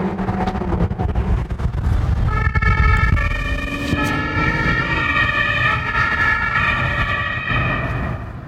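A police siren wails in pursuit of a white Lamborghini on the streets of Hannover. Loud tonal siren notes begin after a couple of seconds and continue over a rumbling bed of traffic noise.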